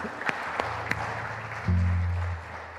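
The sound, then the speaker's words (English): Applause from a church audience welcoming guests during a service, a steady, even patter of clapping throughout, with a low hum joining in partway through. “So shall we just put hands to just welcome them again?”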